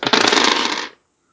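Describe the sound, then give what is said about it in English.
Dice rolled during a tabletop role-playing game make a dense, loud clattering rattle that lasts just under a second and then stops abruptly, leaving silence. “dice roll”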